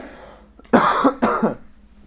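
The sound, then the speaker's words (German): Two sharp, throaty coughs about half a second apart, each a loud burst that fades into a brief rasp, from a person clearing saliva from the throat. “jetzt habe ich Spucke im Hals, Moment, ich muss nochmal husten.”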